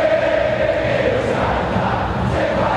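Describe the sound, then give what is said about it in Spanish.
Boca football fans cheering in a stadium, a thick, continuous roar of many voices that stays loud and steady throughout. “El público de Boca comienza a alentar cada vez más fuerte.”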